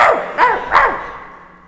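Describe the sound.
A human voice imitates a dog barking during a live comedy show, giving three yapping barks in quick succession, the last one trailing away.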